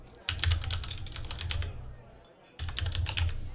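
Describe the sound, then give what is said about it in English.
Typing on a computer keyboard: rapid, steady key clicks in two bursts with a short pause between them, fairly faint, with no talk. “Let me type that out real quick.”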